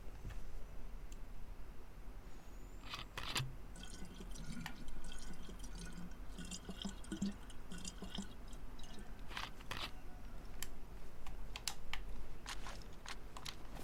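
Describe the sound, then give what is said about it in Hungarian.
Water dripping and trickling as a flask is refilled in a survival video game. Many soft, quiet drips and light clicks are scattered unevenly throughout. “Na, megitattuk Luciliut, itt szépen újra töltjük a kulacsot,”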